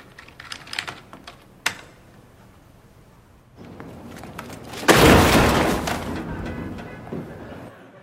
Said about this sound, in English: go to Google Earth and type in your address.